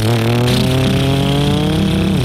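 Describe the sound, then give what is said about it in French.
A motorcycle with a sidecar riding along: a loud, steady engine drone with rich harmonics and slight wavering in pitch, continuous throughout with no voices. “On les retrouve en position inversée sur le sidecar. Ils roulent.”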